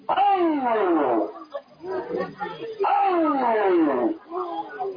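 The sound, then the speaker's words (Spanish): A voice imitates a lion's roar with two long, rough, growling calls that slide downward in pitch, separated by shorter, quieter vocal bursts. “Entre tanto que el perro dice ¡ay, ay, ay! El león hace”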